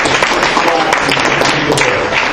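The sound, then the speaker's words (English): Loud applause from an audience honoring the 7th and 8th grade boys' and girls' division champion teams, with thick, continuous clapping and crisp hand-strike transients throughout. “Let's give them a loud round of applause as I call”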